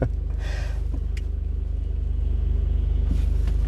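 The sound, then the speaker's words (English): A steady low rumble inside a car moving along a road, with an even pulsing engine drone throughout and a slight rise in level near the end. No one talks. “sorry, paying attention to the road. Happens. As you're doing a podcast in a moving vehicle.”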